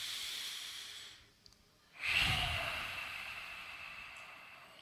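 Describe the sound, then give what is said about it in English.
One big, deep inhale is taken during a guided breathing session. After a short quiet gap, a loud rush of airy hiss starts abruptly and then slowly fades over a few seconds. “Let's take one big inhale together.”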